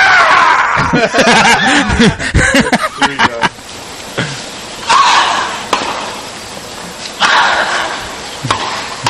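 Two dogs grunting while they play: a busy run of rough grunts, snorts and huffs, dense at first and then spaced into a few louder bursts.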